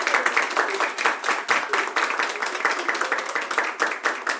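Audience applause fills the whole stretch: a dense, even patter of many hands clapping at a steady, fairly loud level, with no clear start or finish.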